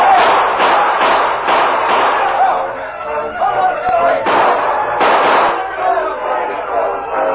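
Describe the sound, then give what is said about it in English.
Gunshots ring out in a Western radio drama shootout between an outlaw gang and a sheriff's posse, many sharp loud cracks scattered irregularly while a voice keeps narrating. “A silver bullet creased the outlaw leader's hand. At the sound of the shot, the gang rushed from the bunkhouse. But the sheriff's posse was waiting for them.”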